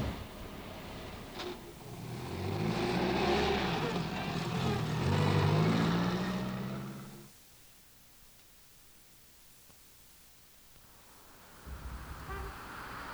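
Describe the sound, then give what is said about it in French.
A car engine runs as a girl rides with her father on a December morning. The engine swells for about five seconds, then drops away to near silence, and a low rumble returns near the end. “Elle monte en voiture avec son père. Mais où vont-ils?”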